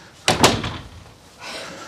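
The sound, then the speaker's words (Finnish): A door being closed by a speaker before an open information session on addiction: a firm thud followed quickly by a second knock, then a quieter soft rustle. “Mä laitan tuon oven kiinni, niin näette paremmin.”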